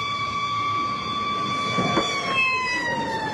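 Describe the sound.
A fire engine siren arriving at a rescue scene, heard as a loud, continuous wailing tone that glides slowly downward in pitch throughout.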